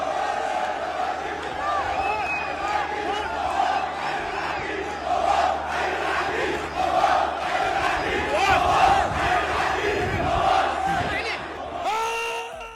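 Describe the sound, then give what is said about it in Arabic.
Iraqi Police Club football supporters chant in celebration, a loud, continuous roar of many overlapping voices in rhythmic unison that swells and surges throughout, with dense crowd noise underneath. “طبعا هذه الفرحة وهذه الهتافات التي استمعنا إليها تهتف للعقيد المواس”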